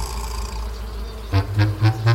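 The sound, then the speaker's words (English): Bees buzzing: a low, droning hum that turns into four rhythmic swells of buzzing in the second half, set over a faint, steady background. “Perhaps they think that you're after their honey. It may be that. You never can tell with bees.”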